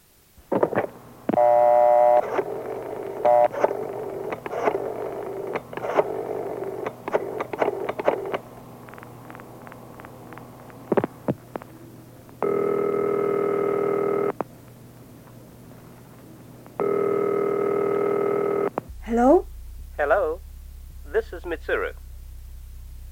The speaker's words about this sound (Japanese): でも困っちゃったな。じゃあ、ミツル君にかけてみよう。